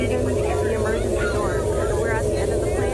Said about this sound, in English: the wind is just extremely loud. There's wind blowing everywhere. That's the emergency landing.